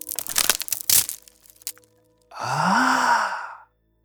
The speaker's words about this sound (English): I had a lot of sounds around me, like branches breaking.